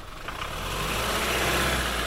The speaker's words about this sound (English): We have to keep stopping the truck to open up a series of gates that help keep the precious horses in place.